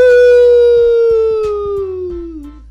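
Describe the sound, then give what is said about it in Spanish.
A wolf howl: one long, loud, smooth tone that slides steadily downward in pitch, with faint soft knocks underneath. “El lobo aúlla. ¡Aú!”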